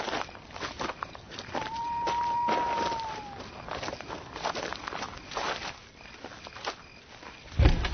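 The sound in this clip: Footsteps walking into a hut: many footfalls at an even pace with light crunching over a noisy background, ending in a heavy thump near the close.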